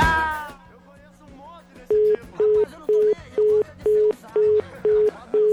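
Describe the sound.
Telephone line beeps from an unanswered call: eight short, evenly spaced tones at a single steady pitch follow a brief burst of speech at the start.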